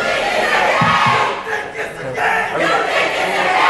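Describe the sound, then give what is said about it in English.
A raucous crowd at a Chicago City Council meeting objects to a $95 million police and fire academy plan for West Garfield Park, with loud overlapping shouts and jeers whose level dips briefly midway before surging again. “Over the objections of one of the more raucous crowds in recent Chicago City Council history,”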